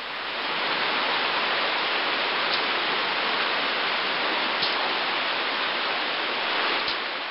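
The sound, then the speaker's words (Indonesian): Steady rain falls outside, a dense and even hiss that holds at the same level throughout, with no voices. “Di luar, hujan masih turun dan sesekali terdengar guruh menggelegar.”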